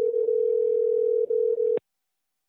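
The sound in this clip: A telephone line tone sounds while a call is placed: a steady, single-pitched hum that dips briefly twice, then cuts off with a short click into silence.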